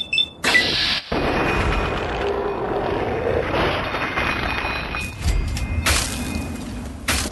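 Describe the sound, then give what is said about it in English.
Plasma weapon fire in a video game: a few loud, sharp blasts over a continuous wash of game noise. “Somebody's shooting a plasma weapon.”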